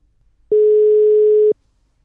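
Telephone ringback tone while a call is being placed: a single steady, mid-pitched buzzing tone lasting about one second, loud and alone, with near silence before and after.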